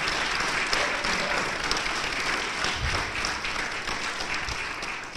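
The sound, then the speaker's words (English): Sustained applause from a live audience greeting a dinosaur panel in the dinosaur hall of a natural history museum, a dense, steady clatter of clapping that holds for the whole clip and eases slightly at the end. “Live from the Great Dinosaur Hall of the Peabody Museum in New Haven, let's hear it, audience, for our dinosaur panel”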